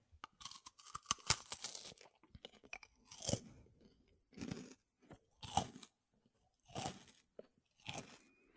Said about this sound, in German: werden bei einigen Menschen Tingles auch durch Essgeräusche hervorgerufen. Und das ist genau das, was du gerade gemacht hast mit der Waffel eigentlich, oder?